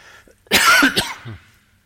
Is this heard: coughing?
yes